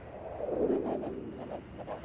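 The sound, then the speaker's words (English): Pen writing in a journal at a bookstore in Manhattan, faint scratchy strokes in short repeated bursts with soft rubbing between them. “I'm writing from the Housing Works bookstore in Manhattan.”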